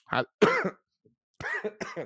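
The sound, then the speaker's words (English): A person coughs in a few rough, throaty bursts. Two come close together, then after a gap a couple more follow, fairly loud and with no other sound around them. “I almost made it without coughing. Dang it.”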